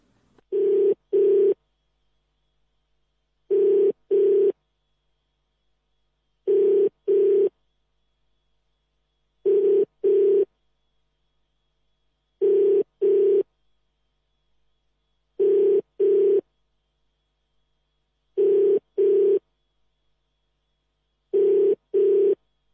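Ringback of an outgoing telephone call, heard while the call is being placed: a steady double-pulse ring repeats eight times at even intervals of about three seconds, with silence between rings and no talking.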